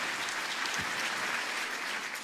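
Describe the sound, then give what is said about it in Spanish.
Audience applause at a church service, a steady, dense wash of many hands clapping that holds evenly throughout at a fairly soft level, with no voices standing out. “¿Cuántos dicen amén y aplauden por eso?”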